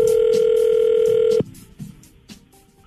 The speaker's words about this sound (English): We find a number at random, just dial it up and see how far Kathleen Pawlowski can go with her questions.